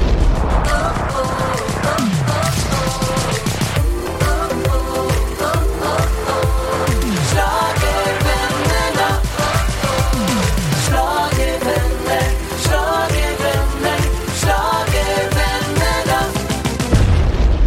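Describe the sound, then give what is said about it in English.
A Eurovision-themed show jingle plays: loud, driving music with a heavy, steady pounding beat and layered instruments that runs without a break for well over a quarter of a minute. “You are listening to Eurovision Legends. Today with a starstruck Emil Löfström. Fire up the jingle!”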